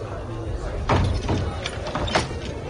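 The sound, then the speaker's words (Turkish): A door closing, the door of the Kaaba, heard as a few soft, scattered thuds and knocks over a low, steady background. “Kapı kapandı.”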